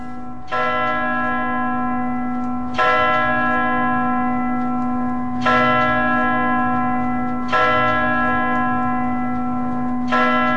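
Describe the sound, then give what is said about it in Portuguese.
A church bell strikes the hour of twelve, with five slow, heavy strokes about two to three seconds apart. Each stroke rings out bright and full and hums on until the next one, over a steady low drone. “As 12 badaladas soaram e terminaram”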